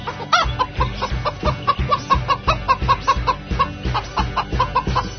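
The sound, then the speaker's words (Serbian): Clucking from a hen with chickens, many short throaty clucks repeating in a fairly steady rhythm, loud and close, with no other sounds. “saditi je kad metneš kvočku na jaje od kokoške. I šta nikne? Piu, piu, piu, piu, piu, piu. I kokoda, kokoda.”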